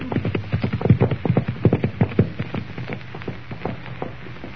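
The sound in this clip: Horses riding off: steady, rhythmic clip-clopping of many hooves on hard ground, loud at first and gradually softening as the beats continue.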